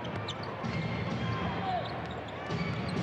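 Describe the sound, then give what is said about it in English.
Basketball thuds as a player makes a left-hand dribble during a professional game between the Jazz and Washington, a run of bounces under steady crowd noise and a commentator's voice. “Left-hand dribble, bounced by Randall, former Stanford college player.”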